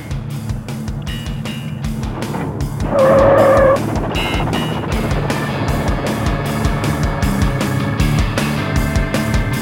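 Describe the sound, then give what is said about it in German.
A car engine revs hard as the driver finally accelerates. A rhythmic, pulsing engine rumble swells into a loud, whining surge partway through, then settles into a sustained, steady drone. “Und jetzt gib endlich Gas.”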